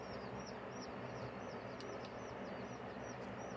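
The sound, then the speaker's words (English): Many chicks cheeping together, a faint stream of high, quick peeps repeating in an irregular rhythm over a steady low rumble, with no talk. “It's a relaxation sounds of chicks, like 50 chicks.”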